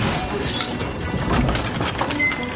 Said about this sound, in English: He thrusts the manacles into the cogged wheels, and they're crushed, setting him free.